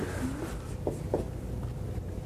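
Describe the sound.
Faint scratching of someone writing a word down by hand, a few short strokes standing out briefly over a low, steady background hum.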